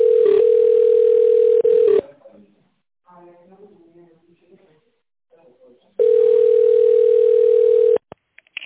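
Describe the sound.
Telephone ringing tone while a call connects to an operator: two long, steady, mid-pitched tones with a spoken passage between them, the second tone cutting off abruptly into a few faint clicks.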